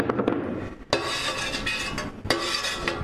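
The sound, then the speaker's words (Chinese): Squid ink being stirred into a mixture makes a soft, continuous scraping and swishing, broken by two sharp utensil clinks against the container. “现在我们把墨鱼骨的汁倒进去。 OK。倒进去后， 然后搅拌它。”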